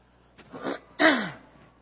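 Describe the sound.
Someone clears their throat: two short, rough, raspy bursts, the second louder and longer, with a brief pause between them.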